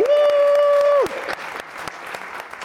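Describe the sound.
A live audience at the House of Culture in Salt Lake City during All-Star Weekend 2023 bursts into applause as a held tone cuts off, the clapping a dense, crackling patter that carries on steadily.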